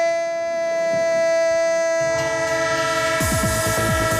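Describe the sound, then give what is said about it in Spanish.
A train sound effect: a sustained, steady horn-like whistle tone holds throughout, joined by rumbling and rhythmic rail clatter that grows louder toward the end. “¡El tren de Radio Estadio! El tren con vagones de fútbol.”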